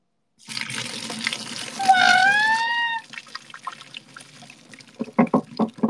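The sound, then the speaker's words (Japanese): Hot water drains from boiled soba noodles in a rushing pour lasting a couple of seconds, with a voice exclaiming over it, followed by a few wet taps and drips. “そばの湯切りの音聞こう、湯切りの音。みんな静かに。静かにしてください。今から湯を切ります。”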